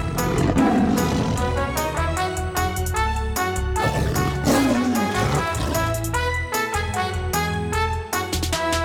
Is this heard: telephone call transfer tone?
no